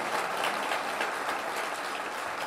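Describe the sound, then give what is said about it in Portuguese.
Applause at a tribute ceremony: a faint, even, dense patter of many hands clapping that holds steady the whole time with no voices over it. “Dona Ivone de Lara, que merece sempre mais um aplauso”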